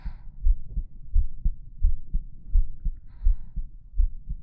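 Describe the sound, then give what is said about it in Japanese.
Pounding heartbeat of heavy, muffled low thumps, roughly six strong beats at a steady, fairly quick pace with softer beats in between, heard alone without talking. “自分でも聞こえるぐらいバクバク言ってんのに。”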